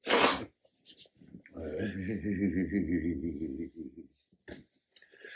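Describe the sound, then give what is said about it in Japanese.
One sharp, loud sneeze bursts out at the start. Quiet vocal sounds from a person follow. “これなかなかいいくしゃみが出ましたね。”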